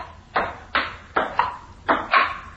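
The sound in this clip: A ping-pong ball bounces six times in an uneven rhythm, giving crisp, hollow clicks. Some hits come in quick pairs, and each hit rings out in a short decay.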